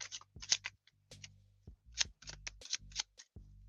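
Oracle cards are shuffled for a weekly tarot reading: many quiet, crisp papery flicks and riffles in uneven bursts, with brief pauses between handfuls.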